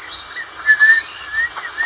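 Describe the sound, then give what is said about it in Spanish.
A person imitates blackbird song with faint, wavering, high whistled warbles that rise and dip in short phrases over a steady bright hiss. “¿Sabe qué pájaro es ese? No. Es un mirlo. ¿Sabe cómo canta? No. Hágalo.”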